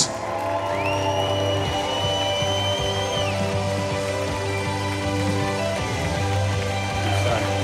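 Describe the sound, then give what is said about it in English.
Church audience at Lake Hills standing to cheer and whoop a welcome for a guest, a loud, continuous crowd roar over steady sustained musical tones. “I want to ask you to stand to your feet and give a crazy Lake Hills welcome for David Thomas.”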